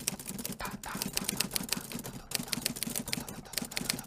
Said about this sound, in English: It's a typewriter. É uma máquina que writes através do typing.